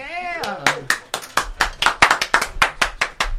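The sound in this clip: Handclapping greets a guest as he is welcomed to the microphone, a few people striking sharp, distinct claps in a quick, uneven rhythm after a brief voice at the start.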